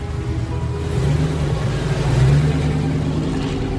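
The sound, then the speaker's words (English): A car drives away along a cobbled street, a steady low engine rumble with broad road noise that swells slightly partway through before easing, with no voices. “She steps out onto the cobbled street and watches the car drive away.”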